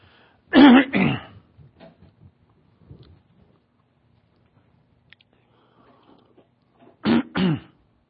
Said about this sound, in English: I can already tell the phlegm ball is going to be about a good 5 minutes before it gets out of there